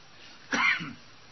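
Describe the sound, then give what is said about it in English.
A single sharp cough from one person, a short harsh burst standing alone against quiet background hiss. “This cough is getting on my nerves.”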